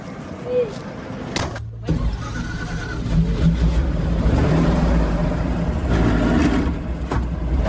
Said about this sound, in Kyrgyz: Ал үчүн атайын ушундай союз кезинен бери каттап жүргөн эски автобустар каттамды аткарат. Анда эмесе кеттик.